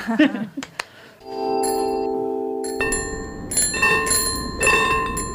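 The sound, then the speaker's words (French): Ringing of an old-school bell that resembles a tram bell, a sustained bright metallic tone that turns louder and more jangling partway through, with repeated strikes ringing on to the end. “On dirait un tram, mais ce n'est pas un tram, c'est une sonnette old school.”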